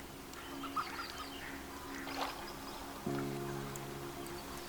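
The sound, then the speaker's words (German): Ducks and other birds around a small duck pond with a nesting island in the middle, faint scattered clucks and calls over a quiet, steady low hum. “Dein Weg führt dich nun weiter zu einem kleinen Ententeich. In der Mitte ist eine kleine Insel mit vielen kleinen Nestern für die Brut.”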